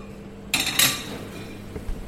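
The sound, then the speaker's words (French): A metal sauté pan is set out for cooking before grapeseed oil goes in. Two sharp metallic clanks land close together, followed by a few faint knocks and clinks. “Pour l'instant, je mets un tout petit peu d'huile de pépins de raisin dans un sautoir.”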